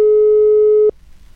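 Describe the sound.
Telephone line tone while a call is being connected: a single loud, steady, pure-pitched beep lasting just under a second, then cut off abruptly, leaving only a faint low hiss.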